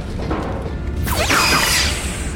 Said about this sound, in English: A lot of phasers going off here, guys. I love a phaser fight.